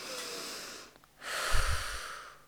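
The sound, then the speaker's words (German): A deep, forceful exhale: two breathy rushes of air, the second stronger and fuller with a low rumble, with no talk over them. “Ich atme tief und kräftig aus”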